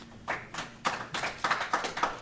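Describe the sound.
Scattered applause from people in a senate committee hearing room: a short run of sharp hand claps at an uneven rhythm, moderately loud and without talk over them.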